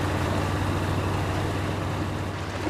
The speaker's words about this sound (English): He gapes as he watches Frakes' yacht pulling off into the distance.